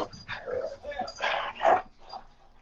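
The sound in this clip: A dog whimpers and yips in a few short, whiny bursts. The loudest sharp yelp comes near the end, then the sound trails off to faint whining.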